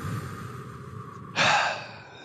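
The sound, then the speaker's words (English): Group deep breath, inhaling and exhaling together: a soft, rushing breathy exhale swells up midway and fades, heard over a low, steady background noise. “On the count of three, we're all going to take a deep breath and we're going to inhale and exhale.”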